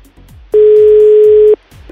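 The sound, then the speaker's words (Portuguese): A phone ringing tone as an outgoing call is placed: a single loud, steady, mid-pitched tone that lasts about a second, with faint background sounds before and after. “Então tá, vamos lá, vamos ligar pra Erika.”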